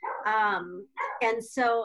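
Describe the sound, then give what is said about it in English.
Dogs barking and yipping at home during quarantine: several loud, whiny, tonal barks in quick succession, separated by short gaps. “My dogs are barking. Sorry about that.”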